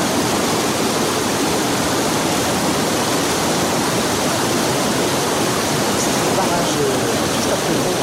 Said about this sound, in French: On regardait l'escalier à truite. C'est un des plus beaux, je trouve, ici.